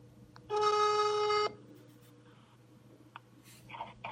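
A telephone ringback tone sounds as a call is dialed: one steady, bright electronic tone lasting about a second, then near-silence with a few faint scattered clicks and noises.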